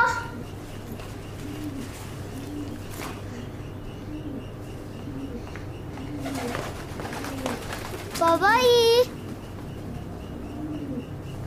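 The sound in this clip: Caged birds cooing indoors: soft, low pigeon-like coos repeat steadily throughout, joined near the end by a brief, louder burst of higher warbling calls.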